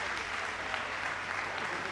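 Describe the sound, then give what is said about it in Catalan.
A crowd in a town square gives an ovation after a gralla band's anniversary performance, a dense, steady wash of clapping that holds at the same loudness from start to finish. “Ovació. La plaça es rendeix”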